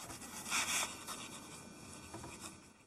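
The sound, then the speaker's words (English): Faint scratching of a pen writing in a diary at 3 a.m., a continuous soft rasp of strokes on paper that grows slightly louder early on, then settles into a steady quiet scribble. “Emma, wearing a blue bathrobe with a white star on it, writes in a diary.”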